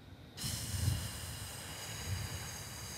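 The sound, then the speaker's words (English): A person exhales one big breath during a breathing exercise, producing a long, soft, breathy hiss that starts suddenly after a short quiet moment and holds steadily to the end, quiet overall. “Okay, so let's take big breath first. Okay, one, two, go. And exhale.”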